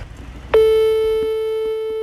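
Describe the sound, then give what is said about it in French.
An outgoing call on a mobile phone produces a steady ringing tone. It starts abruptly after a short quiet lead-in and holds one sustained pitch with bright overtones to the end. “Je sors mon téléphone et j'appelle celui qui m'a donné ma chance, quand même.”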